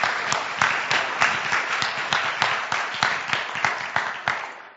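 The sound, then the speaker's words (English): Applause from an audience welcoming a couple to the stage at a church gathering: dense, steady clapping with a regular pulsing beat throughout, tapering off at the very end. “So come on up, Jeff and Renee Smith. Would you give them a hand? Welcome them as they come.”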